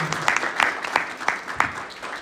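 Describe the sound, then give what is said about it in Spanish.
Applause for a mayor at a conference event: a crowd claps steadily with dense, irregular hand-claps at a moderate level, staying even throughout with no talk over it. “Otra vez, un aplauso para nuestro alcalde que nos honra con su presencia.”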